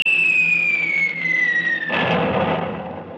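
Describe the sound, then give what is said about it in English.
A bomb explosion in a radio drama: a shrill whistle glides steadily downward in pitch for about two seconds, then a heavy rumbling blast breaks out and lingers to the end. “Was that what they call a bomb? That was what they call war.”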